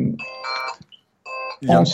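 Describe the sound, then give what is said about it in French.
A telephone rings in two short, bright tonal bursts, with people talking just before and after the ringing. “téléphone qui sonne.”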